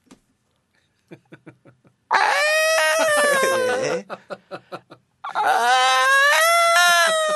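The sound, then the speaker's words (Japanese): A large herbivorous dinosaur cries out in two long, loud, harmonic wails. A series of short, rhythmic pulses comes before the first wail and again between the two. “草食系の大きい恐竜の鳴き声です。”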